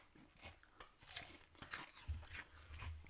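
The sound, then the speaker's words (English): Soft crunching bites and chewing of food, including bread knots, from a table full of dishes: a steady run of crisp crunches and mouth sounds with a few louder bites, and no talk. “so I'm just going to keep eating because the table's full of food at this point.”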